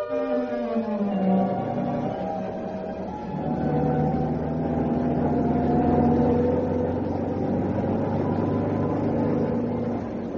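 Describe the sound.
A car engine drones while driving along a bad, rough road, a steady low hum with deep rumble beneath, its tone shifting slightly partway through, with no talk.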